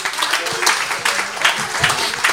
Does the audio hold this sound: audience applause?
yes